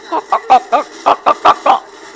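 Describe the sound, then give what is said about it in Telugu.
A voice imitates the clucking of two hens tied to a post in front of a house: eight short, loud, evenly spaced cluck-like calls in quick succession. “ఇంటి ముందు రాటకి కట్టి ఉన్న రెండు కోళ్ళు”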